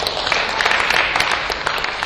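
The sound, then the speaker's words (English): An audience claps through a talk about recovery. The dense, loud applause from many hands is continuous and even from start to finish. “Well, that's a clap for whatever God is, because that's what's made the difference.”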